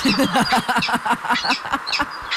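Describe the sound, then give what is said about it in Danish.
A peregrine falcon calls in a rapid run of harsh, cackling notes. The loud, closely repeated calls fill the whole stretch without a break. “Det var en vandrefalk.”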